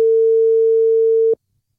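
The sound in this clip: A steady, mid-pitched electronic call tone from a phone call placed over WhatsApp, held unbroken for just over a second before cutting off abruptly into silence.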